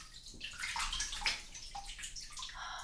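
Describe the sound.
Water sloshing in a bathtub as legs are washed: a steady run of wet swishes and gurgles with a few brighter splashes, no voices.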